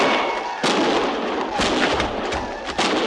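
Gunfire from a battle in a canyon: a few heavy, booming reports with long rumbling tails, spaced about a second apart, loud and with no talk.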